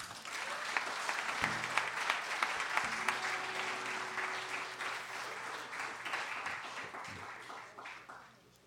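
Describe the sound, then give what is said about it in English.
An audience applauds to welcome a folk and country blues musician onto the stage in White Springs, Florida. Dense, steady clapping holds for most of the stretch, then thins and fades near the end. “So let's put our hands together and make him welcome to White Springs, Florida, Mr. Spider Corner.”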